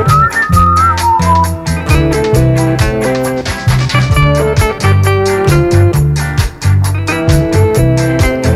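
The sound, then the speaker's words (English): Whistled melody in an old-school ska and revival reggae instrumental, a short tune carried over a loud, steady, evenly pulsing beat with sustained chords. “Can you remember what that is from originally? That little uh, whistling melody there.”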